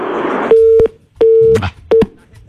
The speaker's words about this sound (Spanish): Se nos fue la llamada, pero ya han de insistir, ¿no?